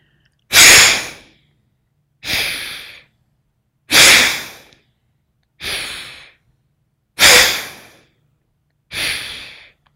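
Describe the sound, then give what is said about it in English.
Vigorous breathing exercise with forceful exhales and inhales: six sharp, noisy rushes of breath in a steady rhythm. Each bursts out loudly and fades quickly, separated by short silences. “step two, which you'll recall is both exhale and inhale are vigorous. So closing and exhale, inhale, side one.”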